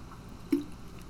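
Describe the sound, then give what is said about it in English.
Someone takes a single short, faint sip of water in an otherwise quiet moment. “as I take a sip of water there”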